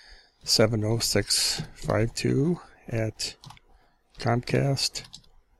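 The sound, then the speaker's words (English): Light clicking of typing on a computer keyboard, scattered under continuous talk that dominates throughout. “Yeah, I'm also typing this in here while I'm telling it to”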